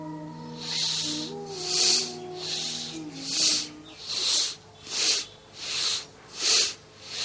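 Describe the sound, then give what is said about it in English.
Forceful nasal exhales of Bhastrika pranayama bellows breathing, a series of hissing, snorting bursts that come faster toward the end, over faint soft background music early on. “And get ready for your second round of Bhastrika Pranayama.”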